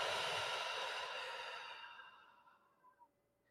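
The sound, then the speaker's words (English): A deep cleansing breath released as one long, breathy exhale that slowly fades away over a couple of seconds, followed by a couple of faint short breaths. “take a big cleansing breath in and release”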